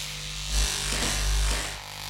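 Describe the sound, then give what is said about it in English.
Electric hair clippers shaving a person's head, a steady low buzzing hum that swells slightly a couple of times as the blades move through the hair. “And I'm gonna shave my head. Just hair.”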